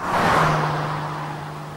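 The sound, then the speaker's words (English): A car speeds into a village and raises dust as it pulls up at a church; one loud, steady engine roar peaks early, then eases slightly while staying strong to the end, with a low hum running through it. “A car speeds into Meadow Lake and raises dust as it skids to a halt and pulls up at the church.”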